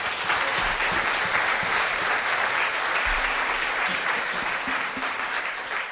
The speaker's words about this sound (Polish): Brawa dla nich.